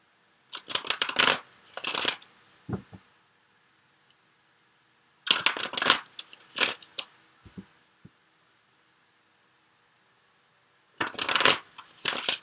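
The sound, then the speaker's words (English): Tarot cards are shuffled and drawn for a reading, in three bursts of crisp, rapid riffling separated by stretches of silence. “But let me go ahead and get the other cards drawn.”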